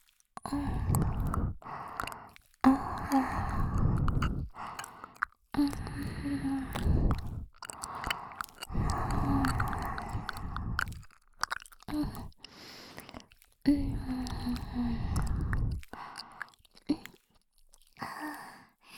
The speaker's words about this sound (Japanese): 耳たぶ、柔らかくておいしい。